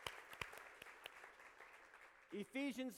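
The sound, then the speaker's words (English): Congregation applause welcoming a remote church campus that watches by video: scattered sharp claps that thin out and fade, then a voice begins speaking. “Everybody in North Attleboro, let's give them a hand. Welcome them in.”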